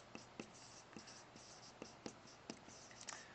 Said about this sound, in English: Okay, so I'm going to go ahead and write this up here.